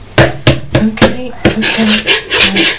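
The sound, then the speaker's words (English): A knife mixing food in a bowl: loud, rhythmic scraping and rubbing strokes, many in a steady series, with a gritty rasping texture. “Right, mix that little bit up please with the knife.”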